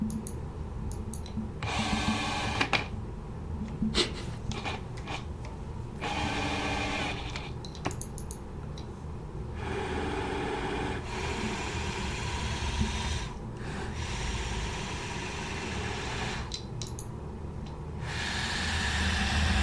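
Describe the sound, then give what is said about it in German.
An electric wheelchair drives with a motor whirr that comes in bursts of several seconds, broken by short quieter gaps and faint clicks. The sound is fairly quiet and starts and stops unevenly throughout. “das ist ja mein Rollstuhl und fährt halt aus. Warte, ich muss auch, glaube ich, mal fahren, sonst ja. bleibt der stecken.”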